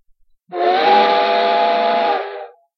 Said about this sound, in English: As they neared a crossing just outside of town, the train's whistle let out a scream,